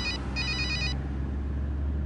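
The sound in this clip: A telephone rings with a high, trilling electronic tone, sounding in two bursts, a short one and then a longer one, before stopping. A steady low hum continues underneath throughout.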